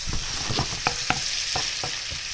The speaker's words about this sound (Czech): A na sádle budeme postupně opékat slaninu a necháme trochu vyškvařit. Jako další přijde cibule a opět orestujeme.